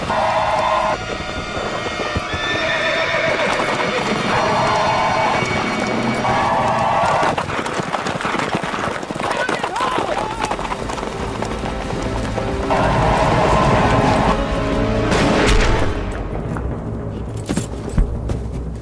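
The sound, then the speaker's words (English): Galloping cavalry horses charge into an encampment during a dramatized battle. Dense, continuous hoofbeats fill the whole stretch, loud and busy, with a faint jangle and noisy rumble mixed in. “As they gallop into the Sioux camp”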